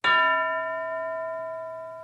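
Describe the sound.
A single bell strike signals the start of a classroom speaking exercise. It is a bright, clear tone with steady ringing overtones that decays slowly across two seconds and is heard alone.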